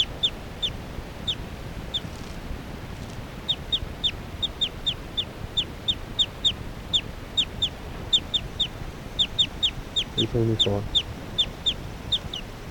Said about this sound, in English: Occasional chirps by 378 there.